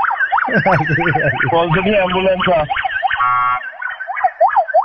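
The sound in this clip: An ambulance siren wails in repeated rising and falling sweeps, loud and steady throughout, with a voice talking over the first half.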